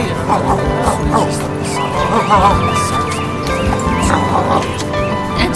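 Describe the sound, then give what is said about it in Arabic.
A dog barks repeatedly, short yelping barks scattered through a dense mix of other sounds and voices, fairly loud and steady throughout. “إنه صوت نباح كلب”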